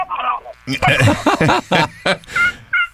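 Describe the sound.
Turkey gobbling imitated on a turkey hunting call, amid talk of spring turkey hunting: loud, rapid runs of throaty, warbling notes in several quick bursts.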